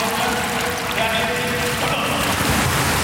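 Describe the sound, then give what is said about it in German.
Ambience of an indoor public swimming pool hall: a steady, dense wash of water noise and echoing hubbub that holds at an even level throughout. “Und so hört sich's an in der Schwimmhalle Schwerin-Lankow.”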